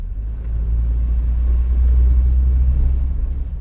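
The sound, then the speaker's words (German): A pickup truck drives a winding, bumpy road in Jamaica's Blue Mountains, its engine a steady, loud low rumble that holds evenly throughout. “Mit ihrem Pickup-Truck geht es eineinhalb Stunden sehr kurvenreich und holprig durch ein grünes”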